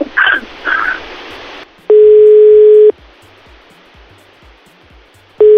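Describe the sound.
Telephone tones of an outgoing call: after a couple of brief noisy bursts, a steady low electronic beep lasts about a second, then a long quiet pause, then the next beep begins.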